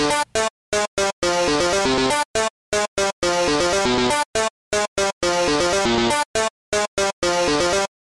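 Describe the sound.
A video game theme intro melody played as written, with its flat-fifth blues note intact: punchy, clipped chord stabs and short bursts alternate in a tight driving rhythm with sharp silences between, loud and alone, ending abruptly.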